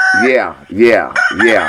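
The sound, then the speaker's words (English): Roosters crowing on a farm: three loud, harsh, drawn-out crows in quick succession, each bending up and then down in pitch, separated by brief gaps. “Go on and crow. Yeah, crow.”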